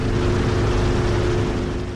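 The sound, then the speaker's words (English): A large fixed-wing drone with two propellers and wings as long as two cars flies with a loud, steady droning roar and a constant tonal whine, tapering slightly at the end; no voices. “It's a drone. No, not one of those small ones that buzz overhead in the park. This one has two propellers and wings spanning the length of two cars.”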